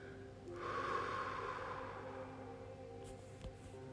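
A faint, slow breath is drawn during a guided breathing exercise: a soft, airy rush swells after a moment and then slowly thins out, with no talking.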